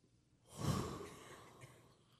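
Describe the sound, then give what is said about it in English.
A single deep breath, a soft airy rush that swells quickly, peaks, then slowly fades away, heard faintly and alone with no talk. “Everybody, come on, take a deep breath.”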